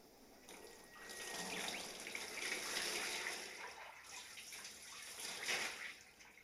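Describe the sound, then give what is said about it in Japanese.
Water splashing and swishing as a body is washed with a towel in a hot bath, a steady wet rustle that swells and eases in a few waves, with no talking. “はい、自分の体洗い終わりました。綺麗になりました。”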